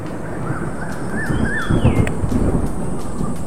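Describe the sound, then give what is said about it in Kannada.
Heavy rain pouring down in a dense, steady hiss with a low rumble underneath, and a few brief bird calls cutting through the downpour partway through. “ತತ್ಕ್ಷಣನೇ ದೋ ಎಂದು ಜೋರಾಗಿ ಮಳೆ ಸುರಿಸಿದನು.”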